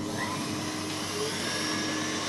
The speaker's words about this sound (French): On met tout dans la casserole et on va monter le tout à 85 degrés. On va la faire monter au batteur.